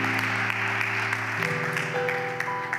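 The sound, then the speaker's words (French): A church audience applauds as a brother comes forward, giving glory to God. Steady dense clapping runs over sustained keyboard-like chords that shift to new pitches partway through. “Quand il approche, nous allons acclamer très fort pour la gloire de Dieu.”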